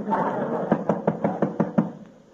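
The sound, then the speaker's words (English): Knocking on a door: a quick run of several sharp raps in an even rhythm, standing out clearly over a steady murmur of background noise. “You want to answer the door”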